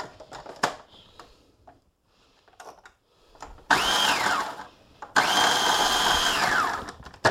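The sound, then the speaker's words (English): A food processor pulses bread oil dip ingredients in two loud motor bursts. Each burst whirs up and then winds down, and there is quiet clatter and handling before them. “I'm going to spin it in my food processor for just a tiny moment. I'm just going to pulse it.”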